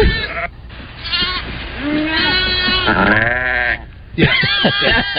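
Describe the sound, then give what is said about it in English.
Lambs baaing: many loud, overlapping bleats with wavering, quavering pitch, following one another in quick succession with only short gaps between them. “So I'm going to say yeah, those are lambs baaing.”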